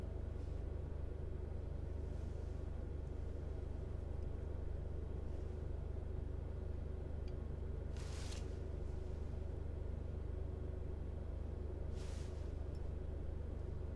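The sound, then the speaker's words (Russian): Steady low engine and road rumble inside a taxi on the move, continuous and even throughout, with two brief hissing swells rising over the drone partway through; no voices. “Парень и девушка едут в такси.”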